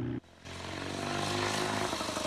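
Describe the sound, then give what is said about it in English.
A Douglas motorbike speeds along a country road with a loud, steady engine drone. It starts after a brief dip, then holds an even, buzzing pitch throughout. “Jack, wearing helmet, goggles and overcoat, speeds along a country road on his Douglas motorbike.”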